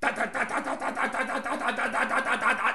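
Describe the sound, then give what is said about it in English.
A voice imitates a car engine idling with a high-lift cam, Edelbrock Performer intake manifold and Holley double-pumper carburetor: a steady, lumpy burble of quick rhythmic pulses at moderate loudness. “an Edelbrock Performer intake manifold, a Holley double pumper carburetor, and what else did I put on that car? Oh, and a high lift cam. When that thing would sit at an idle, it was like”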